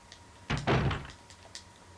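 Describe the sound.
Door opening in the video game Resident Evil 2: a single heavy, muffled thunk with a brief rumbling body midway through, followed by a faint tick, with no talk.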